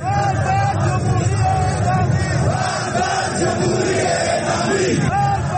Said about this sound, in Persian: بر اساس ویدیوهایی که به دست رادیو فردا رسیده، اعتراض کننده ها این بار شعار مرگ بر جمهوری اعدامی سر دادند.